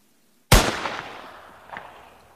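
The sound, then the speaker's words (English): A single gunshot from a Winchester .410 rifle fired at a snake: one sharp, loud crack followed by a long fading tail with a faint later echo. “Today we're going to be shooting the snake with a 410 rifle at Winchester.”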